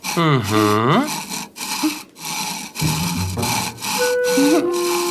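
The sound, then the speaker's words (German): A saw cuts through wooden sticks being trimmed to length for kites, rasping in a few steady back-and-forth strokes separated by short pauses, while voices talk over the work. “Papa hat inzwischen auf den Holzstäben die Länge, die er für die Drachen braucht, markiert und nun kann gesägt werden. So, einmal absägen bitte.”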